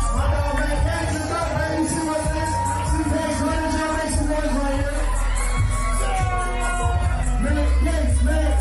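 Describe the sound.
An excited crowd cheering and whooping as Matt Gaetz comes out at a conservative event, a loud, continuous roar with shouts layered throughout.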